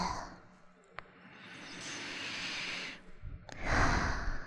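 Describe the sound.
Deep sniffing breaths drawn in through the nose while smelling a hand: two long, breathy inhales separated by a short pause, with a faint click before the first, and no talk.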